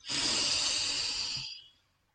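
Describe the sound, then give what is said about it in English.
A long, deep inhale through the nose during a guided breathing exercise makes a steady airy hiss for about a second and a half before tapering off into quiet. “And now let's take a deep breath in through the nose.”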